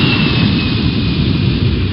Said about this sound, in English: Williamsport Regional Airport. Cleared for takeoff.